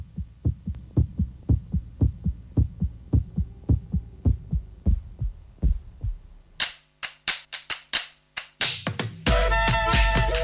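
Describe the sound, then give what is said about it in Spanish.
A heartbeat thumps in a steady, fast series of low pulses for several seconds. Sharper, clicking pulses follow, and a dense noisy burst ends the sequence. “Escuchábamos los latidos del corazón”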